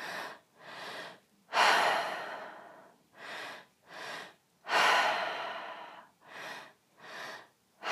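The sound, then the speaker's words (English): Deep two-part breathing in a breathwork exercise: two quick inhales into belly and chest, then a long, loud open-mouth exhale, with the pattern repeating steadily. “And we'll start back with that two-part breath. Deep breath into the belly, deep breath into the chest, all in and out of the mouth.”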